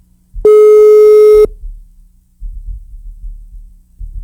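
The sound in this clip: Ringback tone of an outgoing phone call that goes unanswered: one steady, loud buzzing tone lasting about a second, followed by a low throbbing hum.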